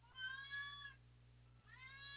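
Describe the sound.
Angry, spayed female cat meowing: two drawn-out, mid-pitched, fairly quiet meows separated by a short pause, the second cut off at the end, over a steady low hum.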